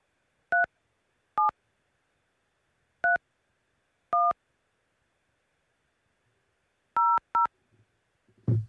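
Six telephone keypad tones enter a six-digit PIN on a conference call line. The short, equally loud beeps come at uneven intervals, with a long pause before the last two.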